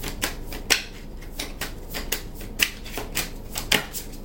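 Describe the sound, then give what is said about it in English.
Tarot cards being shuffled to draw another card during a reading: a quick series of many crisp, papery snaps and flicks at an irregular pace, with sharper louder ones standing out, and no talking. “I need another card. May I have another card, please?”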